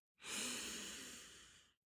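A single deep breath drawn in, a smooth, breathy inhale lasting about a second and a half. It swells quickly, then tapers off before ending abruptly in silence.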